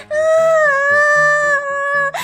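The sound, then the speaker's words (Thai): A voice imitates a ladybird groaning and crying in pain: one sustained, wavering, moaning cry that lasts about two seconds before breaking off into a short sob. “เต่าทองนอนร้องควนคางด้วยความเจ็บปวด”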